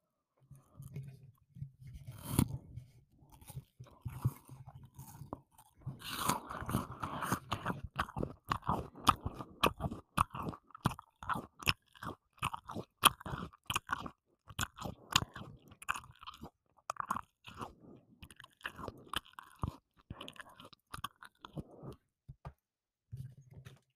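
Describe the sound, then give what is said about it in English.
Bites into a crisp apple, then continuous crunchy chewing in many sharp, rapid clicks and crackles; the sound is sparse at first, then dense and steady, quiet overall with no talk. “Some more fruit ASMR. Apple.”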